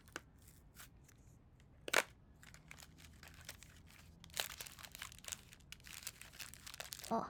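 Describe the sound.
Snack packet crinkles as it is handled and opened, heard as faint, scattered plastic crackles with a few louder rustling bursts spaced through the stretch.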